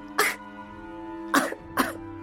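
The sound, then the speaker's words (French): Three short, harsh coughs from an elf character: one burst, a pause, then two more in quick succession, set over a steady droning tonal background. “Et au lieu de rire, il se mit à tousser.”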